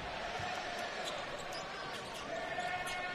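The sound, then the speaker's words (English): A basketball is dribbled on the court during a professional game, with a series of faint, evenly spaced bounces repeating over a steady, constant background noise. “Valanciunas pounding the dribble”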